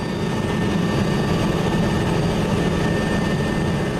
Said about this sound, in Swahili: mlio unaosikia ni wa ndege ya Umoja wa Mataifa ikibeba sehemu ya majeruhi kuelekea kupata matibabu baada ya ghasia katika eneo hili.